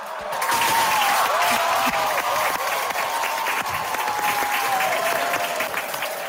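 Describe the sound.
Dense, loud applause from an audience at the announcement of Germany's new Excellence Universities by the federal research minister, sustained evenly from start to finish without a break.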